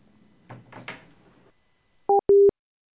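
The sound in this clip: Telephone busy tone after a caller hangs up: two loud, steady dual-pitched beeps, a short one and then a longer one, following a brief stretch of muffled, uneven sound and a short silence.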